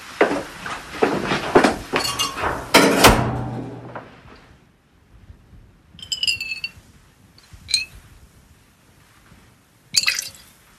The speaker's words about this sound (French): Là, on verse un peu d'huile essentielle dans le bécher. Et puis comme ça, on va mettre ça dans un petit flacon.